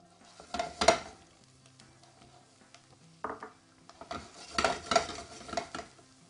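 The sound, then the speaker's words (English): Wild mushrooms, including porcini, oyster, button and shiitake, fry in hot extra virgin olive oil in a pan. Sizzling comes in uneven bursts among metallic clatters and stirring scrapes, with a few louder clusters of activity. “Get this pan nice and hot here. First thing that's going in, wild mushrooms.”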